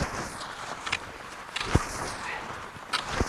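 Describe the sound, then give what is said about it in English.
Narrow cross-country skis kick and glide on a faint packed-snow track at high altitude in the Sandia Mountains, giving soft rhythmic scrapes and thumps every second or so over a steady hiss. “Rono kicks and glides on narrow cross-country skis, bundled against the cold in a thick coat and gloves. He's at 10,000 feet in the Sandia Mountains, skiing a faint track on packed snow.”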